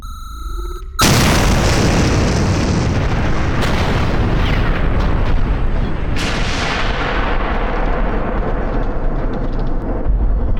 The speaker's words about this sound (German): Zündet die Bombe.